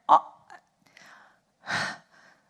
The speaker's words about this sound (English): I have to breathe. I have to take a breath